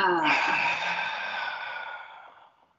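A long, audible open-mouthed exhale during a guided deep-breathing exercise: a voiced, sighing breath that starts strong and slowly fades away over nearly three seconds, heard alone.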